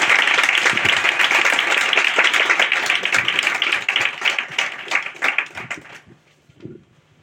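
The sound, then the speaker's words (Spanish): Audience applause at a presentation on feminist concepts: dense, loud clapping for about six seconds, then thinning to a few scattered claps before dying away. “Bueno, le vamos a dar un aplauso y creo que vamos a empezar con una proyección, pero empezamos con un gran aplauso.”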